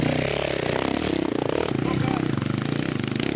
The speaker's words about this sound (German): Dreimal stellt er seine KTM mit langer Schwinge und etwa 6 PS hydraulischem Vorderradantrieb auf dem höchsten Punkt der Strecke ab.